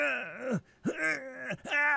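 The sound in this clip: Three loud, sustained screams from a voice actor, made with the glottis closed. Each is a strained, tonal wail with wavering pitch, and brief pauses separate them.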